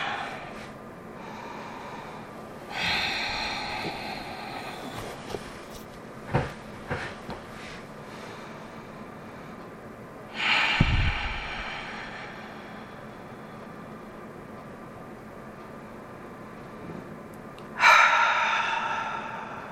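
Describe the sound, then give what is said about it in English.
Long, slow, deep breaths taken to settle into prayer and meditation. A few soft, breathy rushes of air arrive several seconds apart, with quiet pauses between them and a couple of faint small knocks. “We're going to begin by taking some long, slow, deep breaths in order to center ourselves.”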